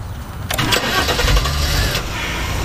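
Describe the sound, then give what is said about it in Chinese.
Car engine starting at the ignition: a sudden burst of cranking noise that settles straight into a steady, moderately loud running hum, with no talking. “第一步，握住方向盘，踩刹车， 刹车 左边，对，打火，”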